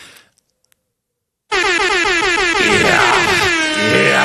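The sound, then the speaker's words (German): Air horn sound effect fired from a button, a loud, blaring horn blast with wavering, warbling harmonics that starts abruptly after about a second and a half of near silence and holds to the end. “ich habe diesen Sound Airhorn, ne? Im Club, das haben ja DJs früher in den Clubs auch ab und zu gemacht”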